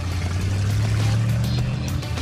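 Engine rumble of a vintage electric blue racing car pulling out of its spot in a garage, a loud, even low drone with a steady hum holding throughout.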